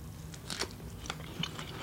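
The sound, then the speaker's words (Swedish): Crunchy bites into a strawberry sprinkled with MSG: a few sharp, wet crunches spaced across a short stretch, fairly faint, with no talk. “Ska vi se, jordgubbe med MSG.”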